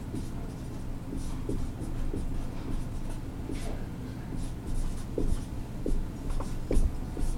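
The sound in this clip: Handwriting scratches steadily across a surface as abbreviations are jotted down. The short, soft pen strokes come in an irregular rhythm over a faint low background hum.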